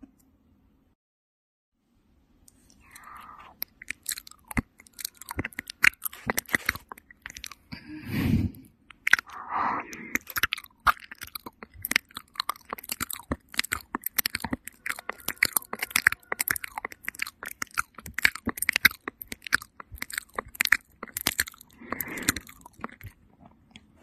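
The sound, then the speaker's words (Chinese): Close, wet mouth sounds of ear licking, a dense run of irregular smacks, clicks and slurps that go on for about twenty seconds after a short silence, with a few soft breathy moments and no speech. “从简单的开始，舔您的耳朵，我试试。”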